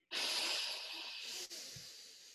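Audible breathing, a deliberate inhale through the nose: one long, airy hiss that fades, then a shorter, softer breath after a brief break.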